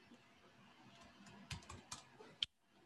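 Keystrokes on a computer keyboard as a command (condor_q) is typed: a few faint, scattered key clicks and one sharper click near the end, then quiet.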